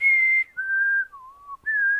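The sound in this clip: A person whistles in imitation of a retro 1950s-style kettle: a clear, pure tone in four held notes that step down twice in pitch, then jump back up. It is loud and heard without talk.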